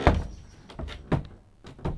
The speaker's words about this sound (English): My door is not working terribly well.